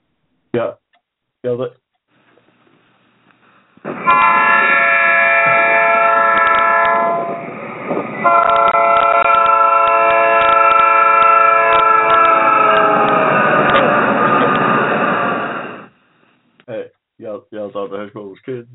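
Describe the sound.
A westbound train's horn blares in two long, loud, sustained blasts with a brief dip between them, bracketed by short bursts of voice before and after.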